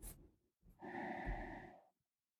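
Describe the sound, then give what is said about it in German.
A single deep, steady inhalation during a guided breathing exercise, soft and airy, lasting just over a second after a brief earlier breath sound. “Lass uns gemeinsam einatmen.”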